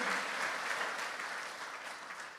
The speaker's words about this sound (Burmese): တို့ယေရှုလက်ခုပ်တီးပြီးတော့မှဂုဏ်ပြုကြရအောင်